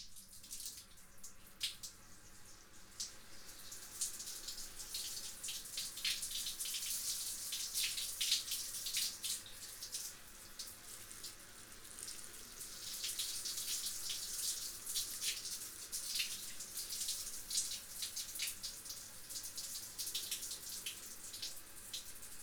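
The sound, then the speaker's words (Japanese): Steady running water pours from a tap as hair is rinsed, a continuous bright hiss with slight surges that holds unbroken for the whole stretch, with no voices. “最後はもう一度髪をすすいでいきましょうか。”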